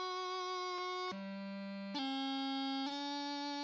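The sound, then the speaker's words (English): A bagpipe chanter plays a light D throw from F with a slightly gurgly tone: a held reedy note drops to a low note, a quick grace note flicks in, then two higher notes sound steadily in turn. “Sorry, my chanter's kind of gurgly there,”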